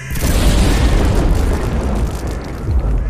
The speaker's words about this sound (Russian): Столб белого света, по недоразумению явившийся после, а не перед оглушительным громовым ударом, взорвал и без того многострадальный асфальт.